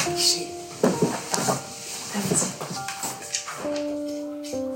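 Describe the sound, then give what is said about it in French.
Someone knocks at a door with a few sharp taps scattered over several seconds. Steady tones run underneath. “Ah si, ça toque.”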